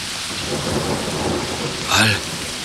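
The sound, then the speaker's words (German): Rain lashes down in a heavy, steady hiss that fills the whole clip, swelling briefly louder near the end. “Der Regen peitscht auf die fassungslosen Gesichter.”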